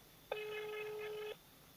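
A single telephone dialing tone sounds alone: one steady, faint beep lasting about a second.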